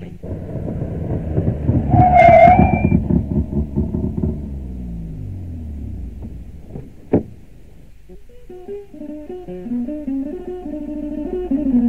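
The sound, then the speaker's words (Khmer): Car engine rumbling as a vehicle drives up and stops in front of a house, a low throbbing drone lasting a few seconds before fading out, followed by a sharp click and then melodic music. “មិនយូរប៉ុន្មានគេឮសូររថយន្តមួយបើកមកឈប់នៅចំពីមុខផ្ទះយីនួន”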